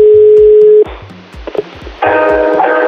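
A steady telephone dial tone hums for under a second, then cuts off into quieter line noise with a few faint clicks. A louder buzzy tone then begins and runs to the end.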